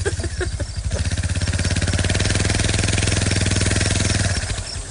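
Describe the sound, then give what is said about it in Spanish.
An old motorcycle engine runs with a rapid, steady, chugging pulse that stays loud and even for about four seconds, then drops away near the end. “¿qué carajo es ese bullicio? Es una moto como el tiempo de Cristóbal Colón.”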